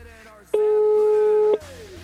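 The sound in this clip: A telephone tone sounds after a number is dialed: one steady, mid-pitched tone lasting about a second and standing loud above the surrounding sound. People talk just before and after it.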